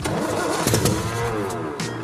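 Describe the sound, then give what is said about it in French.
A car engine cranking and catching after fuel has been added, a rough mid-pitched rumble with uneven bursts and a brief surge of revving, no voices heard. “Allez, de l'essence, on va voir si ça démarre.”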